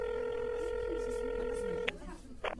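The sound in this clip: A telephone tone is heard as someone places a call to a friend who is lost: a steady electronic tone with layered harmonics holds for about two seconds, then stops with a click, followed by a couple of short noises.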